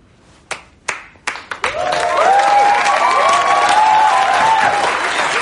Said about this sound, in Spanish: Mira a los demás. Ed inicia los aplausos.